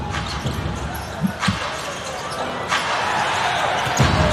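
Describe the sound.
A basketball is dribbled near the basket during a game, with a few dull thumps of the ball rising out of steady crowd noise and continuous commentary.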